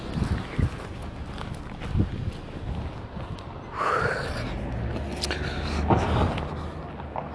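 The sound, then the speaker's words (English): Footsteps of a woman walking by: a few soft, scattered steps over a quiet background, with a brief swell of noise partway through. “So I don't know if you could hear that, but that's the lady that's always walking.”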